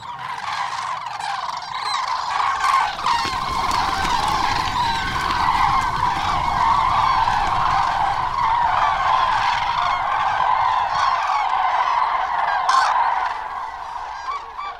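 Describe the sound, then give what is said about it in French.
A flock of common cranes calls as it takes off from muddy ground at the edge of a pond: a dense, continuous chorus of loud, overlapping honking calls that holds steady throughout. “Alors que plusieurs grues volent déjà, d'autres commencent à les accompagner en initiant leur vol après avoir parcouru quelques mètres au sol et les ailes déployées”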